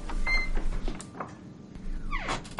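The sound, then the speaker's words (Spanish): A door is closed: a few faint knocks and rustles give way to a brief creaking sweep, then a sharp, louder thump at the very end. “se va cerrando la puerta”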